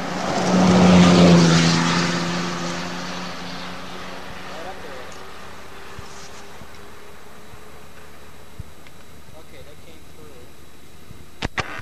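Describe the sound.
Turbocharged aircraft engine, likely a propeller plane, roars loudly at first and then fades into a steady, quieter low drone, with a few faint clicks near the end.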